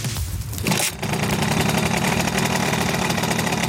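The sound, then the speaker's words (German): A Simson moped's two-stroke engine runs at a moped gathering in Suhl. It gives a loud, rapid, buzzing rattle that holds steady for nearly the whole clip after a brief uneven start. “Das ist der typische Simson-Sound, meine Damen und Herren.”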